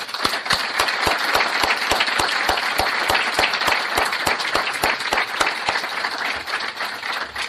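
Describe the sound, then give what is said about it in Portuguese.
Loud, sustained applause from an audience at a club talk welcoming an honored guest, with dense clapping that stays strong and even throughout before easing slightly at the end. “Para ele, uma salva de palmas forte.”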